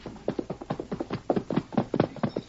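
Hooves of Silver, a horse, clip-clop as he approaches, a steady run of many sharp, even hoofbeats in an unbroken rhythm.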